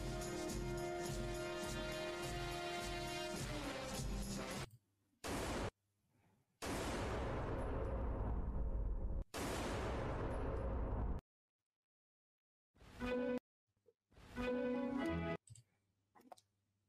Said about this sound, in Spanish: Y esos dos disparos se pierden en la noche de Buenos Aires